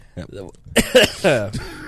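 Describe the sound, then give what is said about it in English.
A person coughs a few times in a row, each cough a short, harsh, voiced burst. “I'm gonna cough now.”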